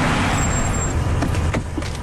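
A car driving: loud, continuous engine and road rumble with a thin high whine early on and a few soft knocks later, with no talking.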